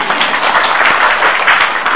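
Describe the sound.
Listeners at a Buddhist dharma talk break into loud applause, a thick, continuous hiss of many hands clapping together, steady and unbroken for the whole stretch.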